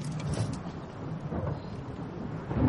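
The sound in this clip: Low rumbling thunder from a storm gathering over mountains, faint and continuous, with a deep, rolling texture that swells slightly toward the end.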